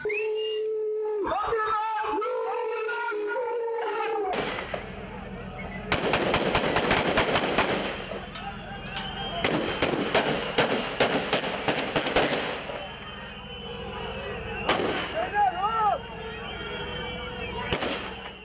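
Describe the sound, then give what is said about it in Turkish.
Rapid gunfire from coup soldiers shooting at a crowd confronting tanks during a coup attempt: dense bursts of sharp cracks and scattered shots that follow several seconds of shouting voices, with crowd noise continuing beneath. “Darbeciler elinde Türk bayrağı olan bir kişiye bile böyle silah sıktı.”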